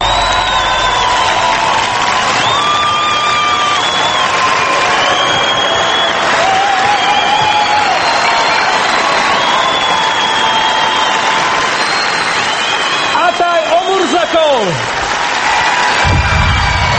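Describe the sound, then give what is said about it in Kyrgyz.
Loud applause and cheering from a talent show audience after a semifinal dance performance based on an animated film. Sustained clapping runs throughout, layered with whoops and whistling voices. “Жарым финалда ал Уолли деген анимациялык фильм боюнча коюлган бийин аткарып, залдагылардын, калыстар тобунун, телекөрүүчүлөрдүн алкышына татыды. Кол чабуулар көпкө чейин тынбай жатты.”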